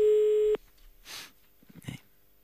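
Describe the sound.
A telephone line tone on an outgoing call: one steady, fairly loud electronic beep lasting about half a second that cuts off abruptly, followed by faint rustling and breathy sounds.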